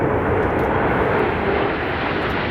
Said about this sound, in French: Est-ce que vous reconnaissez ce bruit caractéristique ? C'est un avion. Les avions de chasse. Ouais. Signature sonore des Alpha Jets de la patrouille de France